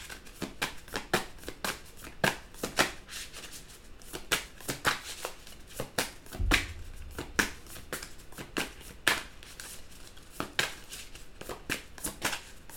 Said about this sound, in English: I'm just going to take a few more cards. May I have a few more cards, please, for the collective?